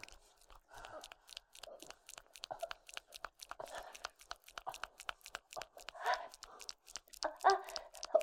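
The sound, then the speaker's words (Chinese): Someone chews spicy gluten strips, giving many faint, crunchy bites and tearing snaps in an irregular rhythm, with a few louder crunches near the end. “我在吃辣条，老公，没事。哎呀，就是辣条太辣了。”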